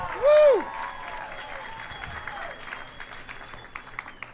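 Soft, steady applause from an audience at a stand-up comedy set for a comedian restarting his act, with a brief rising-and-falling whoop near the start and low crowd murmur throughout.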